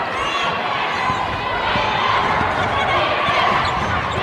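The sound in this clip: A basketball is dribbled repeatedly during a game with Cookeville on court, its quick bounces sounding under a continuous wash of crowd noise.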